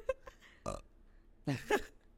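A quiet belch picked up by a microphone: a few short throaty gurgles, then a longer, rougher burp near the end.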